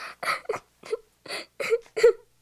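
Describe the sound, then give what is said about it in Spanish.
A young girl cries in fright with a series of short, broken, whimpering sobs separated by catching breaths, rising in strength toward the end. “Al pensar que había hecho algo incorrecto, comenzó a llorar asustada ante la sorpresa del padre.”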